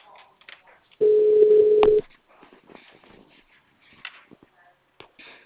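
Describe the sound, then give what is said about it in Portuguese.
A single steady, low ringback tone lasting about a second sounds on an outgoing phone call. Faint background voices and a few small clicks are heard before and after it. “Vamos ver se vai chamar no da Lid, que daí você passa pra ele.”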